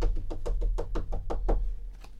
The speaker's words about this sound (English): went timidly up to the door and knocked.